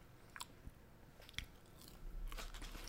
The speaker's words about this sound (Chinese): 我如果这样吃太慢了，不行，我要吃快一点。